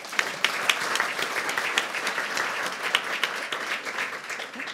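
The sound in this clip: A panel guest is welcomed with audience applause, a dense and even stream of many hands clapping at moderate loudness that tapers off at the very end.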